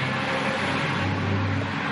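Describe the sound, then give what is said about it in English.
Bus passing by on a street in Guadalajara, heard as a steady low engine rumble blended with road noise throughout. “And bus is going by in Guadalajara, apparently, over there.”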